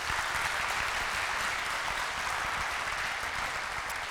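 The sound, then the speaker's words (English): Applause from an audience at a church ministry gathering: dense, steady clapping that stays even and continuous for the whole stretch, with no voices rising above it. “Love you guys. Let's hear it for these guys.”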